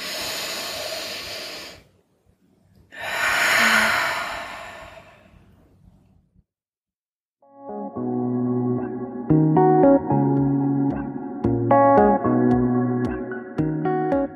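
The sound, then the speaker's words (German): Deep, airy breaths during a guided breathing exercise, a long inhale and a slow exhale, loud and breathy. A pause follows, then soft tonal music with steady plucked notes. “Und nochmal ganz tief einatmen und ausatmen. Und ein letztes Mal.”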